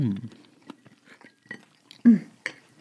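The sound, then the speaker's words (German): Soft chewing while tasting plum jam spiced with cinnamon and clove: a few faint, wet mouth sounds and smacks, with one louder bite-like burst late on and a short murmured hum from the taster. “Also, wir probieren mal die, die Pflaume.”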